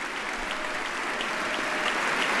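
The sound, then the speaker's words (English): A legislative chamber fills with applause during a State of the Union speech: a dense, continuous wash of many hands clapping that holds steady throughout and swells slightly toward the end. “and receiving a hearty round of applause for an amazing act of heroism in the New York subway system.”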